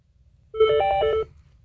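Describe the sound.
A short electronic telephone tone sounds as a call is picked up on a call-in line, a brief chirp of a few stepped notes lasting under a second, heard alone over a low background hum.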